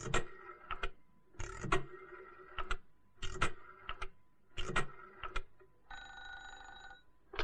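Telephone sounds, faint: four rhythmic clattering bursts in a regular pattern, followed by a sustained ringing tone near the end.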